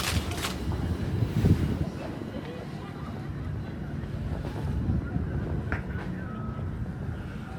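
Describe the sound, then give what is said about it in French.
The sea at rising tide makes a steady, broad washing roar mixed with wind noise, holding an even loudness throughout. “La mer, la marée monte, remonte.”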